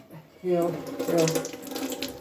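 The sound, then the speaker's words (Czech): Cold water runs from a tap into a sink as a steady, broad rush that starts about half a second in and stays loud to the end. “Ale jenom studená voda teče, to takže nevadí.”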